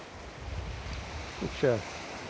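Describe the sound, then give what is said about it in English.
Sea waves roll onto the shore by a beach car park, heard from a parked car as a steady, broad hiss and low rumble of surf mixed with wind, loudness rising slightly toward the end. “I like that little bit sitting in my car before I leave, watching the waves coming.”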